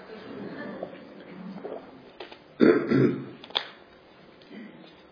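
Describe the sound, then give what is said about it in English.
A person clears their throat because of a tickle, with low, rough throaty noises leading into a loud, harsh rasping burst mid-clip and a shorter one just after. “Wow, this tickle in my throat is really tickling. Hold on.”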